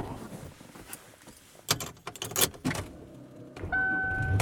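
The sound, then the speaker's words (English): Sounds from a car as it is driven home: a few sharp clicks and thumps, followed by a steady low hum. “And I am driving home.”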